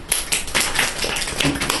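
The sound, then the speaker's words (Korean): Congregation clapping at a Korean church gathering, a dense run of sharp hand claps at a moderate, steady level, with no talk over it. “박수.”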